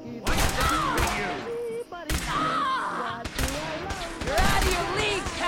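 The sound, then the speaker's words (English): Gunfire in a video game comes in repeated sharp bursts with sudden onsets and brief gaps between volleys. A wavering tonal sound runs over the shots. “Who is shooting at me?”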